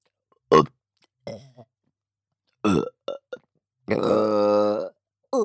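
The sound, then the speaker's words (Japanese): Several burps come in a row, short guttural bursts separated by silence, followed by a longer, drawn-out voiced burp with a croaky, resonant tone and a brief final one at the end. “ゲップ出ちゃいます。”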